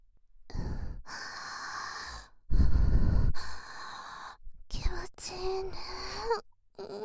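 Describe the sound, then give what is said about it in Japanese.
A woman's slow, breathy inhales and exhales, several sighing breaths in a row, some soft and airy and others carrying a faint voiced tone, with brief silent pauses between them. “気持ちいい。私の呼吸を聞くのは 気持ちいい ね。”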